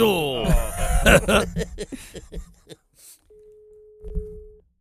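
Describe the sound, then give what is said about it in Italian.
Telephone line tone, heard as a busy signal: a steady, pure mid-pitched hum lasting just over a second. It follows a stretch of lively talk, and a voice returns as it ends. “A me sembrava che era linea occupata, faceva tu.”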